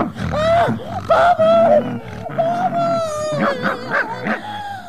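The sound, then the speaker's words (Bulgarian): Dog yipping and whimpering in excited, high-pitched bursts as it plays and tugs at an umbrella, loud and continuous across the whole stretch, with no talking. “Пусни! Пусни чадъра ми, лошо куче! Пусни чадъра!”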